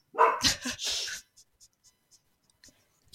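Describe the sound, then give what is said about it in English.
A dog at home barks at people moving around outside: a few loud, rough barks in quick succession at the start, then a long stretch of faint, brief ticks and clicks. “She can hear people moving around outside, so she has to bark.”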